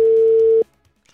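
A steady telephone line tone sounds as a call is placed, holding one unbroken pitch for a little over half a second before cutting off abruptly into near silence.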